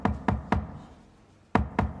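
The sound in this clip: Knocking on a door: three firm, evenly spaced knocks, a pause, then two more, each a sharp, hollow hit that rings off quickly.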